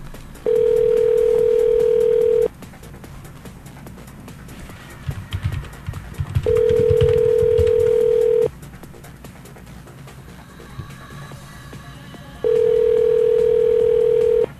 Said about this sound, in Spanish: Estoy marcando al Ministerio de Salud directamente.